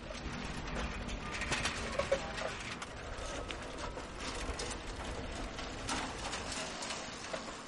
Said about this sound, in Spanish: circula por el barrio en bicicleta